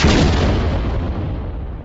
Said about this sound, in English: Insert explosion.